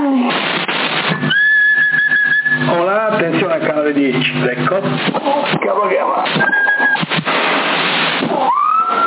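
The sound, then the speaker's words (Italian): Whistled tones, including a held note and warbling glides, come over a crackly, narrow-sounding CB radio channel in Sassari. Voices talk on the channel between the whistles. “Chi è? Chi è? Che fischia?”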